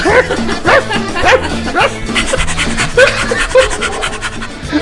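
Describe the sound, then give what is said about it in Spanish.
A dog barks repeatedly and loudly with yips and whimpering tones, mixed with scratching and rubbing noises in a busy, continuous background. “con sonido de perro también en el fondo. Yo creo que con unos ladridos estaría mejor.”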